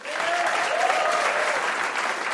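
An audience applauds the final contestant of the evening at a live event with dense, even clapping that holds at a steady loud level throughout the short stretch.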